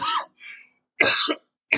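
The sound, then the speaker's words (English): A man coughs a few short, harsh times, the bursts separated by brief silences, with no talking. “I apologize. I'm coughing a little bit, but I'm all right.”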